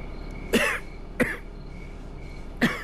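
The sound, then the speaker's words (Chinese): A man coughs three separate times, harsh and hoarse, with long quiet gaps between them. He is a bureau chief whose cough has been getting worse. “刘局长，您这咳嗽越来越厉害了，您可要保重身体啊。”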